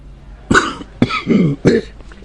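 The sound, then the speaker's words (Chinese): Three hoarse, chesty coughs from an older man who has caught a chill, the first two short and the last longer and rougher, spaced out with brief pauses. “咳嗽道”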